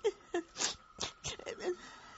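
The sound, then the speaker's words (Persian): A mother cries in faint, shaky sobs and whimpers, a few short, wavering voiced gasps spread over about two seconds. “مادر جان چرا گریه میکنی؟”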